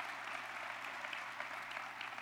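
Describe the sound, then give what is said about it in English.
Steady applause from an audience honoring the Hispanic Heritage Council of Western New York at a Buffalo civic address: a dense, continuous patter of many hands clapping without a break. “Let's give the Hispanic Heritage Council a round of applause.”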